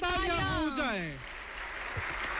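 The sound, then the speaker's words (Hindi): Audience applause welcoming India's Prime Minister Narendra Modi at a public event: a voice is heard briefly at the start, then dense, steady clapping carries on evenly to the end. “देवियों और सज्जनों तालियों की गड़गड़ाहट रुकनी नहीं चाहिए”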